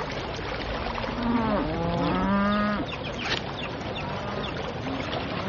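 Cattle mooing from a herd on a trail drive: a few long, low, overlapping moos rise out of a steady bed of noise and fade after a couple of seconds, and the herd's noise continues beneath.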